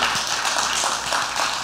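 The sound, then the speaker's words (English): A church audience claps for the Lord in a dense, steady wash of many hands, with no voices over it. “Come on, give the Lord a big hand clap.”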